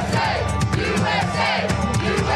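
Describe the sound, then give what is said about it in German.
Crowd at an outdoor open-air concert chanting patriotic chants and cheering: a dense, steady roar of many voices with rhythmic, swelling chant patterns that stay loud from start to finish. “Tausende Fans erschienen und jubelten ihm zu. Immer wieder gab es patriotische Sprechchöre.”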